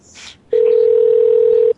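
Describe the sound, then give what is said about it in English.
A telephone line tone: after a short burst of voice, one steady, unbroken electronic tone sounds loud and even for just over a second, then stops abruptly. “The phone's ringing in the Lennox background.”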